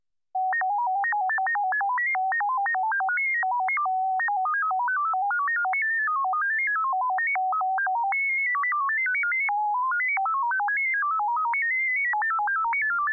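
An amateur radio digital data signal carrying a CQ call and message, decodable by computer: a single pure tone hopping rapidly between pitches in a continuous keyed stream, playing alone for about thirteen seconds after a brief silence.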